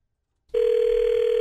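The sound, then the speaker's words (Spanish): A steady electronic telephone tone sounds as a call is being placed: a single unbroken, mid-pitched tone that starts abruptly and holds on its own, with no voices. “Ok, mira, ahí le vamos a marcar”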